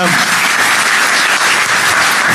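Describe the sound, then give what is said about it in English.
A dense, loud round of applause from an audience holds steady without a break from start to finish. “By the way, just a round of applause.”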